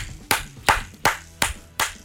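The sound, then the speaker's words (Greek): Hands clap five times at an even, unhurried pace. Each clap is a crisp, loud slap with a short decay, and no talking is heard between them. “εδώ θα χειροκροτήσω.”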